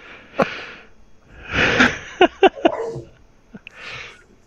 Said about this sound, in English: My dog's losing her mind. I have to mute.